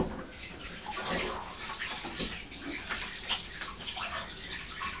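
Water runs from a tap for hand washing, giving a continuous splashing hiss with small fluctuations that lasts about five seconds.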